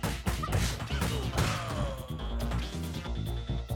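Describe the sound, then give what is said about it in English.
Attacks strike an enemy's shield in a video game, producing repeated thumping, clanging impacts layered over dense, busy game audio. “When you hear that noise, that means you're hitting his shield”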